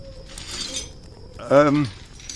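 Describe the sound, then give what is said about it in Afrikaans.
Cups clinking while being washed, with light, ringing chinks and handling noise at a modest level. A short burst of voice sounds partway through. “Ek was gou koppies.”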